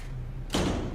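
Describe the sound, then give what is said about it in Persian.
A door is shut with a single dull thud about halfway through. Quiet background comes before it, and the impact is fairly soft and short. “درو ببند.”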